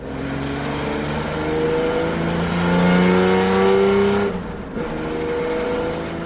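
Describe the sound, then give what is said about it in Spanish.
A car engine revs, its note climbing and holding loud for a couple of seconds, then dropping off abruptly to a quieter, steadier running hum. “Y así puede que tu coche termine sonando así.”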